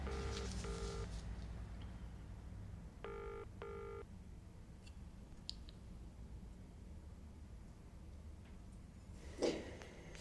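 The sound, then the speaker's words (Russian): Telephone tones sound as a number is dialled: short electronic beeps in two pairs, then a stretch of low background noise with a few faint clicks. “задумчиво звонит по тому номеру мальчика с детдома”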